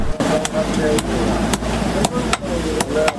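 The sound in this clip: Iron being hammered at a blacksmith's workshop in a blacksmiths' bazaar: a steady series of sharp, ringing metallic strikes over a constant low hum.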